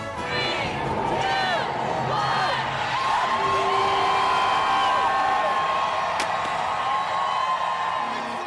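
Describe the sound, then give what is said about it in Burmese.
Crowd celebrating New Year in Times Square, New York: a dense, continuous roar of cheering with high whoops and whistle-like cries rising out of it, loud throughout. “ကြားခဲ့ရတာကတော့အမေရိကန်ပြည်အောင်စုနယူးယောက်မြို့က Times Square ရင်းမြမာနှစ်သစ်ကိုကြိုဆိုနေကြတာပါ”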